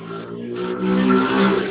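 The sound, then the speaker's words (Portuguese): A motorcycle passes by during a phone call. Its engine drone swells in loudness over less than two seconds and sounds narrow and thin through the telephone line. “Passou uma moto aqui, não entendi.”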